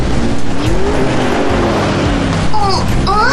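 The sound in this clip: Red sports car roaring past: a loud, continuous engine howl with tire and road noise, and near the end the engine note climbs sharply in pitch as it revs.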